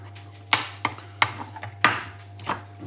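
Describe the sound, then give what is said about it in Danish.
A knife cuts into a halal sausage just taken off a frying pan, making a few sharp, irregular taps and soft scrapes over a low, steady hum, with no talk. “Nu tager jeg pølsen af panden og skærer i den her.”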